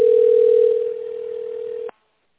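A single steady telephone tone sounds while a call to a company connects to an operator. It stays level for about two seconds, then cuts off abruptly into silence.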